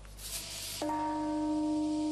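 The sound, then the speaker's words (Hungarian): The memorial bell in Hiroshima tolls on the August 6 anniversary of the atomic bombing: a single strike blooms into a steady, humming ring that sustains to the end over constant background noise. “140 ezer lélekért szól a harang augusztus 6-án.”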